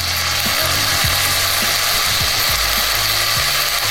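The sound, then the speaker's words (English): Bacon sizzles in a pan with a steady, dense crackling hiss that holds at an even loudness throughout, with no voices. “This is supposedly one of the most satisfying food sounds. It's the sound of sizzling bacon.”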